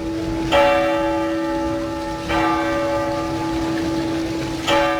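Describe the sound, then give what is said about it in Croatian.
A city clock tower bell in Dubrovnik, dating from the 15th century, strikes three times at spaced intervals. Each strike is a loud metallic clang that hums on in a long, sustained tone, with no voices. “Dubrovački gradski zvonik sa satom, kako ga zvaše na početku ovog našeg stoljeća i dobnik, pamti stoljeća.”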